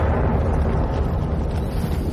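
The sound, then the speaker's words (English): A roaring weapon sound from the video game Bad Company: a dense, loud, blast-like rumble that holds steady for about two seconds, with no voices. “That's not it? That's the sound of the weapon in a Bad Company.”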